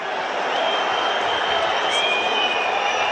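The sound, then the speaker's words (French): Rugby stadium crowd grumbling during a UBB match, a dense and steady murmuring roar that stays loud and even throughout. “Il rappelle Penaud à l'ordre, semble-t-il. Avec le public qui gronde.”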